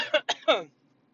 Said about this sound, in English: a little COVID cough there.